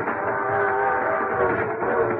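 A coach train rolls along the rails with a continuous rumbling drone and a sustained tonal hum, steady in loudness from start to finish.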